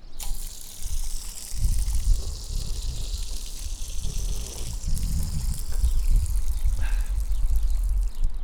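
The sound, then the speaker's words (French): Fountain water flows in a steady rushing splash that fills the whole clip, its level swelling slightly now and then, with no talk. “Tiens, une fontaine, j'avais jamais vu cette fontaine. On va essayer d'enregistrer le bruit de l'eau et je vais boire en même temps.”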